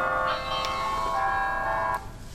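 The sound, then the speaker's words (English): Church bells ring with a few overlapping strikes, each leaving a sustained, shimmering metallic hum. The tones blend into a continuous, fairly faint peal with no voices. “It's okay. That's the church bells.”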